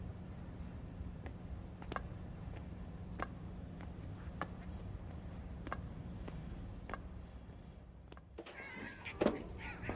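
A cat lets out one wavering meow near the end, after a run of soft, regular ticking clicks over a low, steady background hum.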